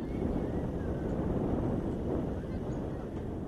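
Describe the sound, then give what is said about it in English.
Wind blowing across a site for protecting civilians, where washing dries on a barbed-wire fence: a steady low rushing roar that holds throughout without pause. “Wind is blowing at the site where washing is drying on barbed wire that is serving as a fence to protect civilians.”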